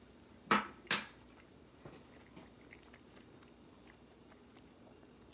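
Chewing buttered noodles: two sharp, fairly loud bite or clack sounds in quick succession, then a few faint soft clicks and mouth noises.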